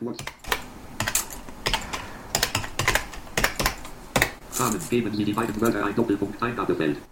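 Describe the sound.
Typing a birth date on a computer keyboard: a run of irregular, crisp key clicks, fairly loud, with a voice joining in toward the end.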